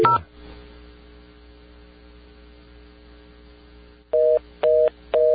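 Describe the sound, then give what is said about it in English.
A telephone all-circuits-busy reorder tone comes after a brief click and a long stretch of steady line hum. Near the end, three short, clipped dual-pitch beeps sound in quick succession. “That's not busy signal. That's an all circuits busy.”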